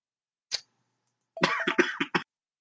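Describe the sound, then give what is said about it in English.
Coughing fit with some throat clearing: one short cough, a pause, then a quick run of several harsh coughs in a row, with no talking. “I guess clear my throat coughing fit there.”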